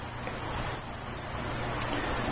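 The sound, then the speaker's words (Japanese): Bell crickets chirp loudly in a continuous, shrill, high-pitched trill that holds steady through the whole clip over a low background hum. “その都度鈴虫さんがこうして、大きな、ね、声を出してくれるということはひょっとすると鈴虫さんも一緒にご記念してるのかなとこう思うんですね。”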